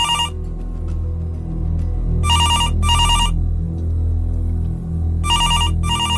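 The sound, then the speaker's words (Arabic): A reception desk telephone rings in repeated short double bursts, bright electronic trills separated by pauses, over a constant low background hum. “لقيت التليفون بتاع الاستقبال بيرن، مش عارف ليه.”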